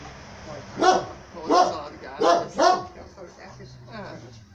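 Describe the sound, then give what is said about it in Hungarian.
Dogs barking outdoors: four loud, sharp barks come in quick succession, followed by fainter sounds, with voices talking throughout. “Ott van két kutya is kint.”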